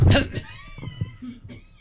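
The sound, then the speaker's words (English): A single short, loud cough bursts out at the start, followed by brief, softer voiced sounds. “excuse me, I had to cough.”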